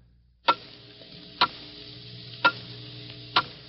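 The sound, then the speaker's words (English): A clock ticking off the final seconds of 1950 toward New Year: four sharp, evenly spaced ticks about a second apart, crisp against a quiet background. “Hear it? Those are the last fading moments of 1950. The clock is steadily counting them out.”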